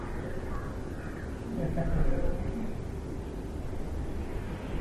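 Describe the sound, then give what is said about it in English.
A crow caws a few times over a steady, dense background noise, with the calls growing somewhat louder around the middle of the stretch before easing off. “Listen. There is no reason why this crow should”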